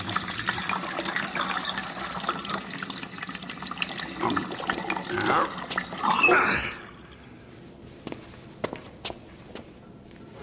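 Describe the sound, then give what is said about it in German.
Distilled spirit gurgles from the tap of a huge wooden spirit receiver vat into a whisky cask, filling it to just below the opening: a steady, loud gushing of liquid that cuts off after about six and a half seconds, leaving faint scattered ticks. “öffnete den Hahn des riesigen hölzernen Bottichs des Spirit Receivers. Gluckend füllte der Feinbrand das Whiskyfass bis unter die Öffnung.”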